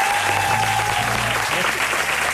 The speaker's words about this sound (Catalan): Estem a Reus, aquest aplaudiment és per tu. Mira, bravo.